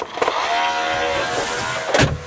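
A robot vacuum cleaner fitted with a dust cloth hums as it is switched on and runs over the floor. Its steady, whirring motor noise carries throughout, with a brief louder surge near the end.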